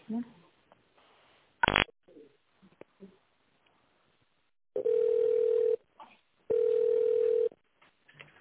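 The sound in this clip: Telephone ringing on the line while a call is transferred: two long, steady buzzing tones of about a second each, separated by a pause. A sharp click and some quiet talk come earlier, and faint noises fall between the tones.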